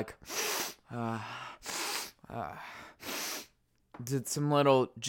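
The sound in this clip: Someone sniffs Flonase nasal spray up the nose with several sharp, forceful inhalations. Short voiced grunts come between them, and a longer vocal sound follows at the end.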